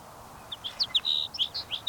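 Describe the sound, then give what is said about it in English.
Sage sparrow song: a quick run of many short, thin, high-pitched chirps and twitters at a rapid, uneven pace, fairly faint over a soft background hiss. “sage sparrow number 8.”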